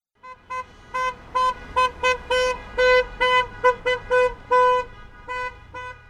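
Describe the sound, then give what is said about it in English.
Car horns honk from a caravan of healthcare workers and supporters at a rally outside a hospital. Many loud honks of mixed length follow one another in a steady, uneven rhythm and sometimes overlap, with no talk. “That's the sound of a car caravan of healthcare workers and supporters outside Riverside Community Hospital. They're honking in support of SB 275”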